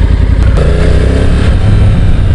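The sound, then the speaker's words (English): A sports tourer motorcycle in urban mode idles loudly while being shuffled through a multi-point turn, giving a steady, dense low engine rumble with no clear revving and no talk. “Just doing a 3-point turn now, so I'm using my legs to go backwards and I can shift it back without getting off the bike.”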